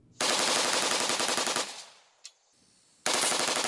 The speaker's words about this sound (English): that's not much different from this video demonstration of a semi-automatic that's been outfitted with a bump stock.